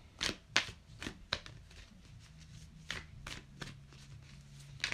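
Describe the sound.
Oracle cards are shuffled in a series of quiet, crisp riffles and soft slaps, coming in irregular bursts with short pauses between them.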